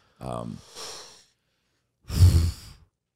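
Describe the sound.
A queef sound effect: two airy, exhale-like bursts. The first has a low, buzzy flutter trailing into breathy hiss, and a louder, rougher puff follows after a short silence.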